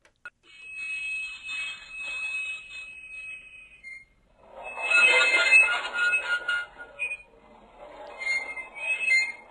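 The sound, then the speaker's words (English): Train wheels squeal and scrape on the tracks. A shrill, sustained high-pitched whine comes first, then a louder harsh grinding screech with shifting tones that keeps going to the end. “I believe that is a train scraping on the tracks.”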